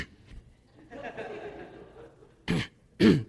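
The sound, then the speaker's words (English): A person imitates someone clearing their throat: two short, gruff, rasping bursts that come right after a stretch of quiet talk. “he clears his throat all the time. Every 5 seconds, he clears his throat. I just want to scream. And again, I was so tempted to go,”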